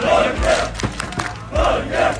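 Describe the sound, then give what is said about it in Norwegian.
Fans fill the streets of Oslo, celebrating after Norway beat Senegal 3-2. The loud crowd shouts a chant in rhythmic, repeating bursts. “Det var full fest og stormende jubel I Oslos gater etter at Norge slo Senegal 3-2 I natt.”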